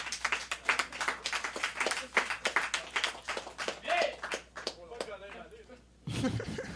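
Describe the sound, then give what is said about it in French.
Audience applause and clapping for a comedian at a French-language stand-up show: a steady, dense run of claps that goes on throughout, with a voice heard over it. “nous amène applaudissement à Tommy”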